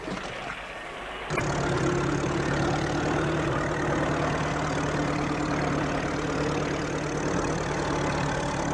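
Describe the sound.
Motor vehicle engine starting abruptly, then settling straight into a loud, steady, rumbling idle that runs for several seconds.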